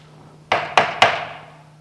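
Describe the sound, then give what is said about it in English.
Three sharp wooden raps of a small judge's gavel, a little hammer, land in quick succession. Each strike is crisp with a short decaying ring, over a faint steady low hum. “When the judge slams down his hammer, he gives the final verdict. This is the sentence. The auctioneer uses a little mallet like this.”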